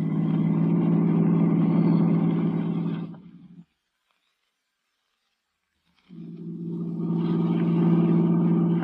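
A car engine roars steadily in a radio drama, a low, heavy drone that fades out into silence for a couple of seconds before returning just as loud.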